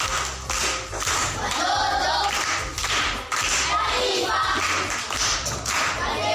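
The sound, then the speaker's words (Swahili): An audience of schoolchildren and adults claps at a school event, a brisk run of hand claps that swells and dips irregularly over a few seconds. “Makofi kwa mjomba.”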